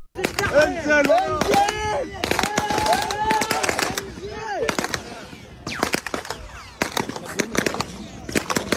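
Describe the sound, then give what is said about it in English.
Gunfire at a food aid distribution site in Gaza, many sharp cracks in irregular rapid bursts, mixed with people shouting and talking. “filmed himself at a GHF site under relentless fire while trying to obtain a bag of flour for his family”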